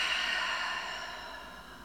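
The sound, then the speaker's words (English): A deep breath taken during a guided breathing exercise, in through the nose and out through the mouth: one steady, soft airy hiss lasting about two seconds that fades slightly toward the end, heard alone without talk. “One more time in through the nose and out through the mouth.”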